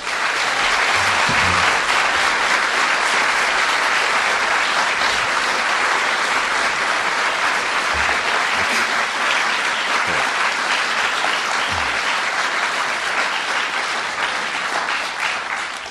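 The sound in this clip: Sustained audience applause welcoming a speaker at a political meeting, dense steady clapping that continues without pause for the whole stretch.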